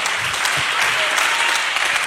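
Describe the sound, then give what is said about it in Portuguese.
A church audience claps their hands in sustained, dense applause that stays at an even, loud level for the whole stretch, with no clear break between the claps. “O Senhor pode bater mais forte as palmas para Jesus, igreja.”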